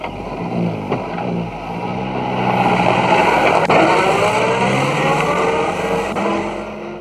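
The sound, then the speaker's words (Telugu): A car engine roars steadily and loudly throughout, swelling a little in the middle before holding a constant droning tone with no voices. “Car”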